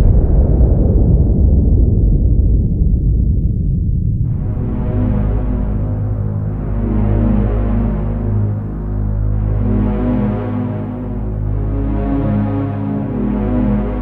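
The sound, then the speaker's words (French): A deep, roaring atomic bomb explosion fades over about four seconds into a loud, low, throbbing drone that swells and pulses steadily. “La lumière verte, j'appuie sur le bouton. Voilà, je viens de jeter une bombe sur Hiroshima.”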